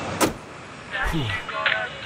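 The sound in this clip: A car door shuts with a short dull thud as someone gets into a waiting car, followed by a second soft knock and faint shuffling and muffled sounds inside the vehicle.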